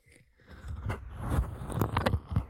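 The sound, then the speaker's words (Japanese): Wet ear-licking mouth sounds: soft, irregular smacks, squelches and clicks come in a quiet, close series with no speech. “どうですか、耳なめの実力は。”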